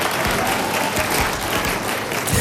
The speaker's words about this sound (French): et ça s'applaudit.